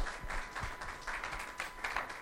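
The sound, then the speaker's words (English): Light audience applause welcomes a speaker coming up to deliver the message at a church gathering. Soft, scattered claps come in uneven pulses that swell and thin out. “would you come up and give a round of applause for Kurt?”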